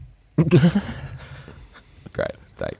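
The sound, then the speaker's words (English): Burping and indigestion noises: one long, gurgling, low belch, then two shorter, quieter burps near the end. “Indigestion. Noises of indigestion.”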